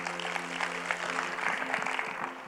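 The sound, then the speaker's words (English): A church audience applauding as a pastor is sent off: steady, continuous clapping from many hands at moderate loudness, holding evenly for the whole stretch with no pause. “Go ahead and go with Pastor Joel. Come on, give him a hand, church.”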